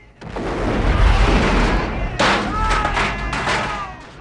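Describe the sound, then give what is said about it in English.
Explosions as outbuildings blow up and a gun tower collapses at a villa: heavy rumbling booms and thuds roll together without pause, and a fresh sharp blast cuts in midway, loud throughout. “John keeps running as more outbuildings explode and the gun tower falls.”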